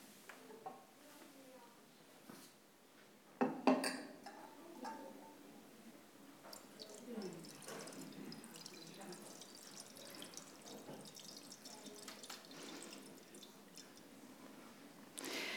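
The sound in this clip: Liquid poured into a vessel until it overflows, a faint steady trickle and splashing running on, with a couple of sharp knocks early and a voice speaking at times.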